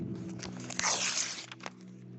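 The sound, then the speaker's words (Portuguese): A page is ripped out of a Bible: a dry, rasping paper tear swells to a loud burst midway, then trails off into a couple of short, crisp crackles. “E você pode rasgar uma folha. Assim, ó.”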